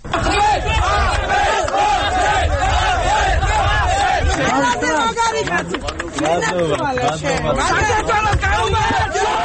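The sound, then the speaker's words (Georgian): Political party supporters shout and cheer in response to a court decision: a dense, loud crowd of many voices yelling, chanting and roaring, sustained throughout without a break. “ასეთი შეძახილებითა და ოვაციებით შეხვდნენ მოსამართლის გადაწყვეტილებას”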